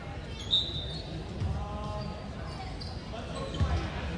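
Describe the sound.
A basketball is dribbled on the court during a Springport game, with repeated low thumps under crowd noise and a commentator speaking.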